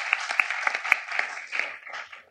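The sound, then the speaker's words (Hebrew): Light applause from the audience at a municipal council meeting: a modest number of hands clapping in quick, uneven bursts, fairly faint and thinning toward the end. “מגיע לו גם מחיאות כפיים, הוא צופה בנו.”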